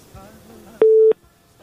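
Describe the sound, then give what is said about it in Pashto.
A telephone busy tone after a call disconnects sounds as a single steady mid-pitched beep, loud and brief, following faint voices. “ها فکر کوم چې اړیکه یې پرې شو”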